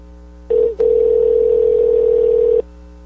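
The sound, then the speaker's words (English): Ringback tone of a telephone call going unanswered: a single steady, buzzy tone lasting about two seconds after a short quiet start, with a brief dip near its beginning, and no voices. “Alright, no answer. Let's try her on her cell.”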